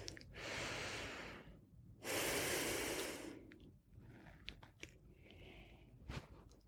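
Slow, faint breathing during a guided relaxation exercise: two long, airy breaths followed by quieter small clicks and rustles, with no talking.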